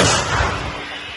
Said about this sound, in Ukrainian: Бійці продовжують бити по цілі, один за одним. Розвідники більше не коригують, то значить все лягає у ціль. Готово! Постріл!